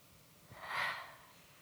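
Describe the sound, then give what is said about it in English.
Guided group breathing exercise: one deep breath drawn in and let out, a soft, airy swell that rises and fades, quiet, with no talk. “You're going to take a breath in, take a breath out.”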